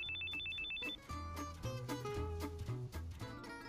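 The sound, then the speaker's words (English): A phone rings as an incoming call arrives: a quick run of high, evenly spaced electronic beeps, then a brighter melodic ringtone pattern of short repeated notes. “And right then the phone rings and I look down and the old caller ID says Tony Parp in big white letters”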